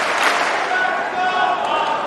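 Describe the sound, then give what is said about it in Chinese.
Crowd cheering and chanting a player's name in support, a dense, steady roar with no clear breaks across the whole stretch. “现场在喊着费里的名字，观众呢在给他加油鼓劲儿。”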